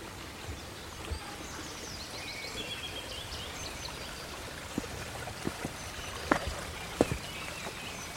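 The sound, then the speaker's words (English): A small streamlet fresh off the mountain flows among tangled oaks in an oak wood. A faint, steady trickle of water runs throughout, with a few soft drips and splashes rising above it. “Lovely. Let's just listen to that stream.”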